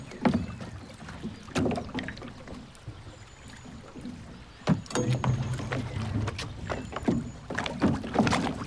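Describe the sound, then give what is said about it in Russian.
An oar rowing a boat on water, with repeated splashing strokes and sloshing at an uneven pace over a steady watery wash, without any voices. “Взяла весло и начала грести.”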